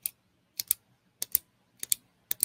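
Sharp, dry clicks of a pen used as a marker in place of a dog-training clicker. They come mostly as quick double clicks repeating at a steady pace, with no talk.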